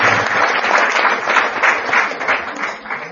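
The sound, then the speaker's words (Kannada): Audience clapping at a devotional gathering welcoming a guru, a dense, continuous patter of many hands that holds steady and eases a little toward the end. “ಚಪ್ಪಾಳೆ ಹೊಡೆಯೋದ್ರಿಂದ”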